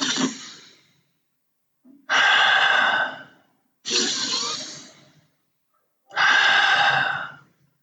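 Four deep, airy breaths, each drawn out for over a second and fairly loud, separated by short silences with no talk.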